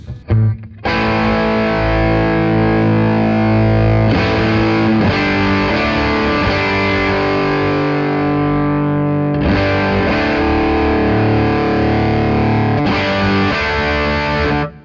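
Loud electric guitar runs through a Plexi Drive distortion pedal into a dirty, overdriven amp. Thick, saturated sustained chords ring out alone and change a few times.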